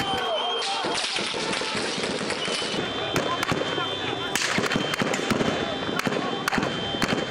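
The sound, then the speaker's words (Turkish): Gunfire grows more frequent during a night-time coup attempt: many sharp, loud cracks in irregular, rapid bursts over a dense, noisy background. “Ateşlerin sıklığı arttı.”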